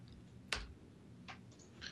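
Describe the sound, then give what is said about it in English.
Faint clicks of a computer keyboard as commands are typed, a few sharp, irregularly spaced keystrokes over a quiet background, with no talk. “was just typing some commands there.”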